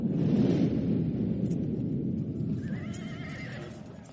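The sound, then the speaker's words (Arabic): Horses neigh and gallop under Mamluk horsemen carrying rifles. A dense, steady rumble of hoofbeats runs throughout, and a higher whinny rises above it near the end. “صهلت الخيول عاليا وهي تركض لتنهب الأرض من تحتها”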